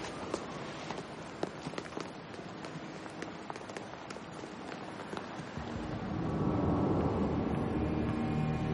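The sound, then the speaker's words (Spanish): Footsteps descend an outdoor staircase: many crisp, fairly even steps sound alone for about five seconds before a denser, louder wash of sound takes over. “Una vez fuera, baja la escalinata.”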